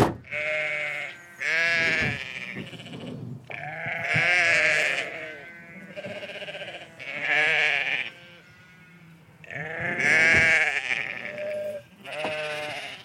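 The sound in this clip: Many ewes and newborn lambs of an itinerant shepherd's flock bleat in the Ciron valley of South Gironde, a flock of about 250 mothers and 129 lambs. Loud, overlapping bleats of mixed pitch come in a steady chorus with only brief lulls.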